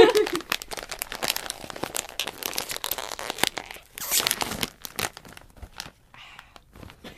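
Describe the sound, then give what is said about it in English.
A popcorn bag is opened, giving many sharp, irregular crinkles and crunches of the plastic in quick bursts, loud at first and thinning toward the end, with some talk mixed in. “I'm opening the popcorn.”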